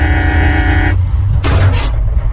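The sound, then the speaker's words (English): Car horn honking at an abandoned car with no wheels: one loud, steady, sustained blast of about a second, followed by short bursts of hissy noise. “Stop honking. Can't you see this car ain't got no wheels?”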